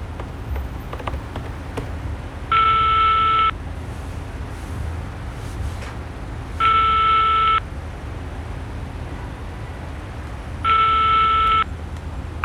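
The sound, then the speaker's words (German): A telephone call is being placed from a hotel room. Three evenly spaced tone bursts, each about a second long, ring out over a steady hiss, with long quiet gaps between them. “T-Rex ist klar, dass er sofort seinen augenblicklichen Geldgeber, den Reporter Kai Sickmann, anrufen muss.”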